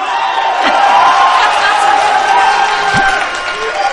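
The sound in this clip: Men in a talk-show audience cheer and applaud, a continuous loud roar of clapping with shouting voices rising through it from start to finish.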